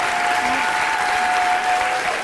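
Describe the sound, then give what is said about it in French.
Dense, steady applause from a theatre audience giving a standing ovation, a continuous wash of clapping that holds an even loudness throughout, with no single voice standing out. “Une standing ovation.”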